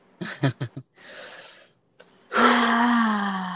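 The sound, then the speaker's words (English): A deep breath: a few short breathy sounds, then a noisy drawn-in inhale and a long, voiced, moan-like exhale that holds a steady low tone to the end. “let's just take a big, deep breath.”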